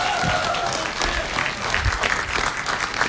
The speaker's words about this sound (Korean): 박수 박수 박수